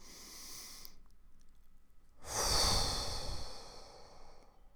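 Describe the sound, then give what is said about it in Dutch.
Slow, soft breathing: a quiet airy intake through the nose, then a fuller, louder breath blown out through the mouth that fades away gently, with no talking. “Je ademt in via je neus. En je blaast uit.”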